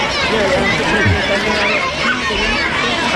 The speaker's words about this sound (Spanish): Este murmullo que estábamos escuchando era el momento en el que daba la mano a algunos niños que han querido regalarle un libro, pequeño azul, pequeño rojo, elaborado, ilustrado por ellos mismos.